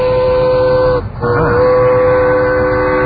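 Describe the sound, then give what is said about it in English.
A passing train sounds a steady, sustained horn tone that briefly dips about a third of the way through and then carries on loud over a rumbling background, picked up as it plays through a home stereo. “Oh, you got the train? Yeah, sorry about that. It's coming through on my stereo. Yeah, there's a train going by.”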